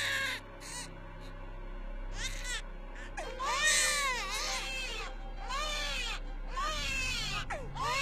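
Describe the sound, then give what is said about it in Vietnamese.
A child cries out in pain, sobbing and wailing in many high, arching bursts that rise and fall, loud and anguished, with short breaks between cries. “Tiếng khóc đau đớn, tiếng khóc quằn quại, tiếng khóc ghê rợn.”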